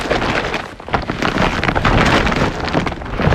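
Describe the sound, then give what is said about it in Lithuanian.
An IKEA clearance shopping bag full of items rustles in a loud, dense, continuous crinkling and scraping noise that runs throughout, with no voices. “Girdite? Tai IKEA išpirktuvių krepšys pilnas pasiūlymų.”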